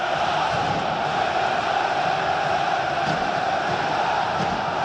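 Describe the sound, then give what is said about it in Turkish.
Fenerbahçe football fans chanting intensely in their stadium at Kadıköy during a match against Beşiktaş, a dense, unbroken crowd roar that holds a steady level throughout. “Yoğun tezahürat. Fenerbahçe taraftarının takımına desteği.”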